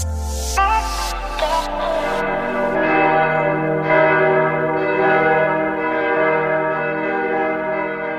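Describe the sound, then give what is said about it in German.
Church bells ringing in Germany to call Christians to prayer: loud, rich strikes in quick succession whose resonant tones overlap and blend into a sustained, shimmering peal. “So klingt Deutschland, wenn Christen zum Gebet gerufen werden.”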